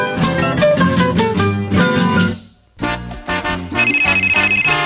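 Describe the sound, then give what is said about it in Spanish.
Bright bell-like ringing tones imitating a telephone ring within a lively musical jingle for a radio contest, loud and rhythmic, broken by a brief dip before the ringing resumes. “Siempre tempranito, ring, ring. Óyelo sonando. Ring, ring.”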